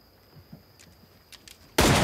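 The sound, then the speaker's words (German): A single loud gunshot blasts out abruptly at the end, after near quiet with only faint small clicks and rustles. “Hey! Sie schießen!”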